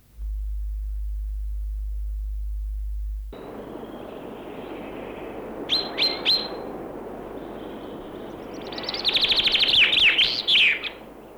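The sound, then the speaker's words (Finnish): A northern wheatear sings, first a brief cluster of high chirps and then a longer, scratchy, rapid twittering phrase, after a low, steady hum at the start. “Västeräkki.”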